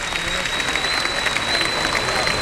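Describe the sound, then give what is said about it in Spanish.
A bullring crowd applauds a bullfighter after her bull with a dense, even patter of clapping that holds steady from start to finish. “Y hay palmas para Maripaz Vega, que ha tenido en este toro un enemigo sin duda.”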